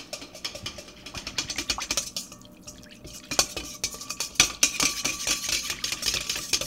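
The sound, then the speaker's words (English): A whisk beats quickly against a bowl to dissolve yeast, making many fast, light clinking strokes in a steady, brisk rhythm at moderate volume. “I'm impatiently whisking the yeast to get it dissolve a little faster.”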